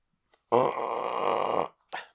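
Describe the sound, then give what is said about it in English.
A single muffled burp, low and voiced, drawn out for over a second and fairly faint, heard alone without talk. “And what was that? That was a burp. I muffled it because I didn't want to break the microphone. Sounded like a bear farting.”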